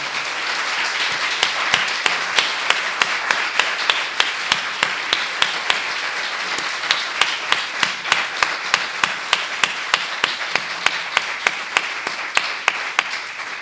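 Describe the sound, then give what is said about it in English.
Audience applause at an event, thanking three people, with many hands clapping in a dense, steady burst that runs evenly and loudly for the whole stretch. “So please, can we give all three of them a really rich hand?”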